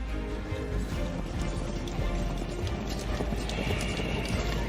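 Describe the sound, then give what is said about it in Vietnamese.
Horses ridden by fleeing soldiers gallop off in battle, their hooves making a dense, rapid, steady clatter that stays loud throughout. “quan quân rối loạn, lúc này cuống cuồng thúc ngựa bỏ chạy.”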